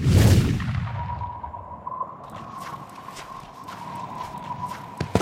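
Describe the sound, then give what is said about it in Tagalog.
Quick, hurried footsteps of a man arriving: many rapid, evenly paced steps over a steady tone, following a swelling rush of noise at the start. “Isang mabilis at sunod-sunod na hakbang, may isang lalaki mula sa malayong lugar na dumating at nagmamadali.”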